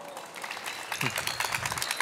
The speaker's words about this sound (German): Jetzt bitte einen großen Applaus auch für unseren Künstler heute.